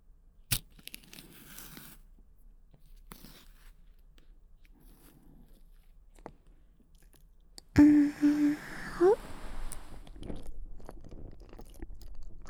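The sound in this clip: Eating a banana: sparse soft clicks and mouth sounds at first, then a louder burst of wet chewing and tearing noises in the closing seconds.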